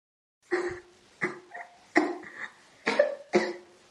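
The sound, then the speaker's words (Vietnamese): Dry, harsh coughing from a woman with a long-standing illness: a series of short, rasping bursts about half a second apart, some stronger and some weaker, with no talk. “Phi Duyệt thấy nàng ta lại bắt đầu ho khan”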